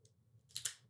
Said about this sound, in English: Beautiful, beautiful cigar. All right, boys, let's cut this thing.